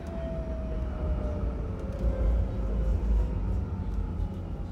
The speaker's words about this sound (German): Die Tram fuhr endlich ihre paar Meter noch bis zur Haltestelle.